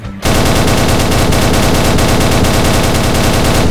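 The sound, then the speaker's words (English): Loud, continuous gunfire from enemies in a video game: a dense, unbroken stream of rapid shots that starts abruptly after a brief quiet moment and stays at a steady level throughout. “Enemy shooting. Enemy. Enemy.”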